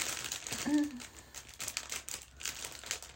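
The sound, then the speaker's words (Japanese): A clear plastic inner bag crinkles softly and continuously as it is handled, quiet throughout, with a brief voice partway through. “透明で、でこれちょっと内袋開けるのにハサミが必要かな”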